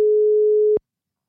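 Ringback tone of an outgoing telephone call, a single steady mid-pitched electronic beep lasting under a second before stopping abruptly into silence.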